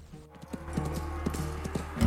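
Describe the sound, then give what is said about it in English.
A horse trots and turns on the spot at dusk as its rider puts it through its paces. Steady, regular hoofbeats clop on the ground over a low constant hum. “It's dusk, and Melquiades is looking on as Pete puts a horse through its paces. Running the animal back and forth, he makes it turn on the spot before trotting over to Melquiades.”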